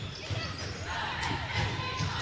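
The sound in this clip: Basketball dribbled in the backcourt during a women's game involving the Lady Wolverines, several dull, muffled bounces in a loose rhythm over a faint crowd murmur.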